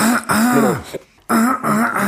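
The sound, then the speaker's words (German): A voice mimics a throat clearing by an audience member at a concert: voiced, gruff bursts with a short break near the middle, then more rough clearing sounds, fairly loud and alone. “Erstmal räuspern.”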